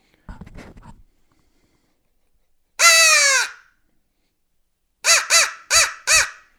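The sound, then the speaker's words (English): A hand-blown crow call imitates crow cawing: one long, harsh, drawn-out caw, then after a pause four short, loud caws in quick, even succession. “Instead of just 10 straight seconds of crow calling,”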